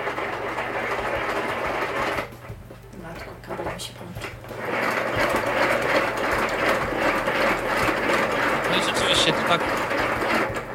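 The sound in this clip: A small hand-cranked kitchen mixer spins while empty, giving a rapid, rattling mechanical whir with ticking gear clatter. The noise eases briefly partway through, then picks up again and runs steadily to the end.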